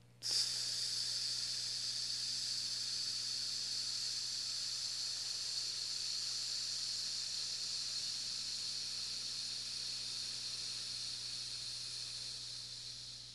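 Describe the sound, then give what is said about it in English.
A long, slow exhale during a breathing exercise makes a steady, soft, breathy hiss that lasts over ten seconds and fades slightly toward the end, with no talking. “Now slowly exhale.”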